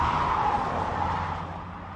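A car driving fast with its tires skidding, a sustained screeching hiss over a low engine rumble that slowly fades.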